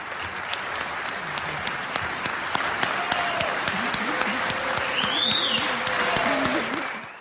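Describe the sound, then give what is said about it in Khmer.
US lawmakers in Congress applaud Ukrainian President Volodymyr Zelensky with loud, sustained clapping that runs unbroken for several seconds, with some voices rising within the crowd. “វាជាពេលដ៏រំជួលចិត្តមួយនៅពេលដែលសមាជិកសភាអាមេរិកទះដៃសារតូមេដឹកនាំអ៊ុយក្រែនលោក Volodymyr Zelensky ដែលថ្លែងទៅកាន់សភាអាមេរិក”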